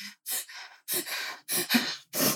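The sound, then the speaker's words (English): Heavy breathing comes as a person takes a run of deep, airy breaths. There are about four or five breaths in a steady rhythm with brief pauses between them, moderately loud and without speech. “I didn't just go for a run. I just was breathing heavy.”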